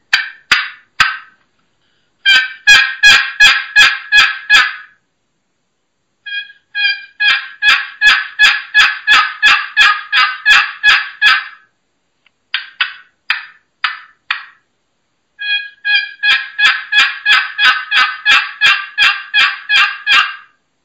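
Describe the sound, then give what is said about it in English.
Turkey yelps played on a Primos box cutter box call and a Pollard's Elite double-sided call, in several runs of rapid, evenly spaced raspy notes with short pauses between runs, loud and alone with no voices. “That's a Primos box cutter. And then a Pollard's Elite. This is a double-sided call.”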